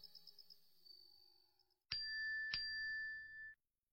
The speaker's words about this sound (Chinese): 江恋睡得正熟，突然就醒了，是被进来的消息提示音给吵醒的